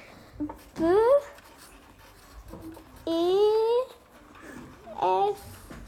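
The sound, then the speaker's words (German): Handwriting on paper: soft, scratchy pen or pencil strokes, faint and intermittent, heard between and beneath short bursts of children talking. “Ich fange mit meiner besten Freundin an. Deshalb schreibe ich über den ersten Rahmen beste Freundin.”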